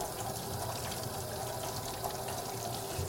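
Water running from a tap as cut leek is washed under it, a faint, steady hiss with a brief knock at the very end.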